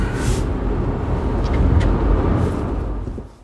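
A car turns onto a side road with a steady low engine and road rumble. The rumble stays constant and then fades away at the end.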